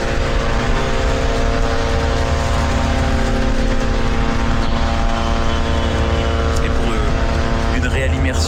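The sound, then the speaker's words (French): Israeli drones buzzing overhead in Lebanon, a loud, continuous droning hum with steady tonal harmonics that holds unbroken and even in level throughout. “Écoutez ce bruit, ce n'est pas votre radio qui bourdonne, n'essayez pas de régler quoi que ce soit, c'est le bruit des drones israéliens. On les entend quasiment en continuité au-dessus de nos têtes,”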